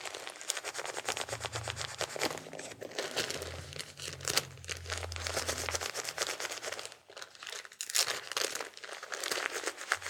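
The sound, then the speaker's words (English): A diaper on a baby crinkles and rustles as it is taped up, a faint, continuous plastic crackle with many small bursts and brief tearing-like scrapes. “Now hold still, little baby. I gotta get your diaper all taped up, nice and snug.”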